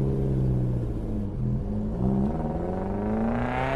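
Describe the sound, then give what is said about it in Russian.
The motor of a sand vehicle rumbles steadily and loudly, its droning engine tone climbing gradually in pitch as it accelerates. “прислушиваясь к мотору пескохода, пока звук не затих вдали”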